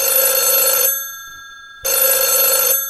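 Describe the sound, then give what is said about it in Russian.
A telephone rings twice, each ring a loud, bright, trilling bell burst of nearly a second, with a short quiet pause between them. “Ой, это не мне. Это тебе звонок.”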